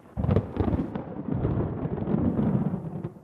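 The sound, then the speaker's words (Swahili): A magic stone in a folk tale rumbles like thunder: a sudden loud burst, then a deep, rough rumble that holds steady and fills the whole clip with no voices. “jiwe hili litaitikia kilio chako, na kisha utasikia ngurumo kama radi.”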